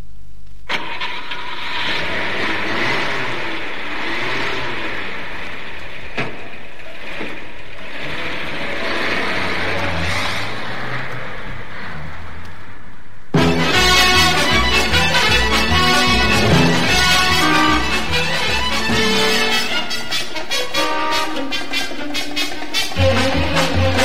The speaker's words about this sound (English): Cancel the countryside run, Parker. We've just been called to an urgent assignment. Get out the Rolls Royce. It's all ready and waiting at the door, m'lady.